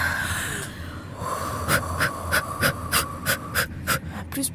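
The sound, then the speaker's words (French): Quick, rhythmic breaths during a deep breathing exercise, many short puffs of air in and out, fairly loud and evenly spaced over low background noise. “Allez, respire avec moi”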